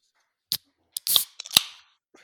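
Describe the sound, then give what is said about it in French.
Beer being opened: a few sharp metallic clicks, then a short, loud fizzing hiss with crackly pops. It is heard alone, without talk. “Faut s'ouvrir une petite bière. Soyons festifs.”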